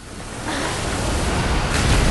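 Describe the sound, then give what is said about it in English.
Ocean surf roars as broken waves' white water tumbles like an avalanche toward a beach: a broad, churning rush that swells louder partway through and keeps building to the end. “As a view from the beach shows the broken wave's white water tumbling like an avalanche, an underwater view shows it rolling away from Anne-Marie.”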